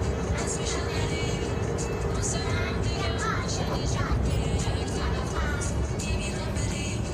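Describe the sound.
Car driving, a continuous rumble of engine and road noise that stays steady and moderately loud, with no clear breaks or changes in level.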